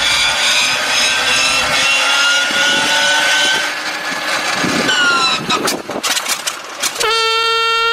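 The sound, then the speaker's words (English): A comedic machine sound effect, the 'offcutting machine', blends loud, continuous wood sawing with a droning engine. The rasping grows choppier before a honking, horn-like tone takes over at the end. “But first, Chris, crank up the offcutting machine.”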